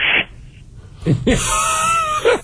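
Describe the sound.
A human voice imitates a baboon screeching on top of a car at a safari exhibit: a short shrill squeal, a pause, then a longer harsh, strained screech.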